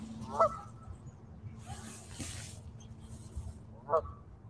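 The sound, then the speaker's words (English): Geese honk outdoors: two short, distinct honks, one near the start and one near the end, rise just above a steady low background hum. “You can hear the geese behind me”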